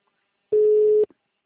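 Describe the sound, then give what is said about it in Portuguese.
The ringing tone of an outgoing telephone call sounds once: a single steady, pure mid-pitched beep about half a second long, alone against silence. “Tô ligando aí, tá chamando?”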